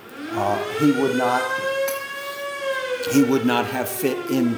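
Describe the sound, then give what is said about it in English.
A fire company's siren wails behind a man speaking. Its single long tone climbs slowly, then sinks back down over about three seconds, staying steady under the ongoing talk. “if you heard that fire siren in the background while you're listening, one of our young men just got up, went out the front door because he's part of the fire company.”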